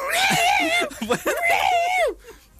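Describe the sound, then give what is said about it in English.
A human voice imitates two cats fighting in a back garden, with a loud string of warbling yowls and screeches that rise and fall in pitch before cutting off abruptly. “And then today, I was in the kitchen, and I heard two cats fighting. Cats, honestly, it was like a cat battleground going around my house.”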